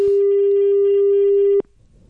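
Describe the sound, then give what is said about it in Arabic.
Telephone ringing tone on a call to a mobile phone that goes unanswered: one long, steady, mid-pitched beep lasting over a second and a half, then cutting off abruptly to near silence. “إذن ما كيجاوبش في الهاتف النقال.”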